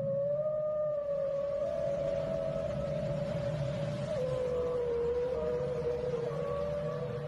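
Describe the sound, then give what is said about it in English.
A lone whale's call, pitched higher than other whales, sounds as a long sustained tonal moan that holds steady, dips slightly partway through and stays continuous and fairly loud over a low rumbling background. “This is the sound of the loneliest whale.”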